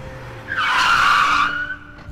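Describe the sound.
A car skids with a loud, sustained tire screech lasting about a second, driven recklessly by drinking kids. A low engine rumble runs beneath it before and after the squeal.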